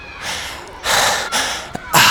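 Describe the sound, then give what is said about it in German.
A voice imitates a badger character panting after finishing a race, giving a few loud, rough, snorting breaths separated by short pauses, with the last breath the strongest. “«Aber ich bin ja auch ein Dachs und kein Gepard», schnauft der Max, wenn er beim Ziel ankommt.”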